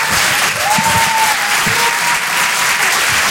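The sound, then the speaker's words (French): Audience applause at a live comedy and song show in a theatre: dense, loud, steady clapping from a crowd that holds evenly throughout without a break. “Faites du bruit, s'il vous plaît, pour Certes Mathurin.”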